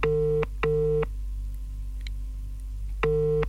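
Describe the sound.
A telephone call rings out to a radio contest winner: a double burst of ringback tone, a long silent gap, then the tone starts again. No one answers and no one speaks.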